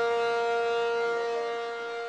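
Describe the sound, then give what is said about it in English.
Emergency sirens sound at an oil refinery during a fire as a shelter-in-place alarm. A steady, sustained siren tone, rich in harmonics, holds throughout and eases slightly toward the end, with no voices. “Emergency sirens roar at the Chevron refinery in Richmond, while a fire at the refinery sends flames and a plume of thick black smoke into the sky. The alarm means shelter in place.”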